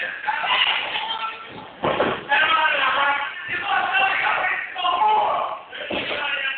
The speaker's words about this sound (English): Sidewalk slam? That might not be. I'm sorry. It's like a side slam.